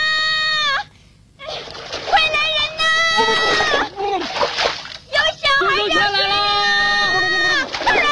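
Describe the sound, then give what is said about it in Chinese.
A splash as a child falls into water, a brief burst of loud, noisy spray heard among strong tonal sounds and excited voices. “救命啊，有小孩掉水里了。”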